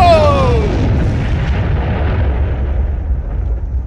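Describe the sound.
A bomb explosion sound effect: a loud, low, rumbling blast with faint descending whistling tones at the start, then a long, broad roar that slowly fades.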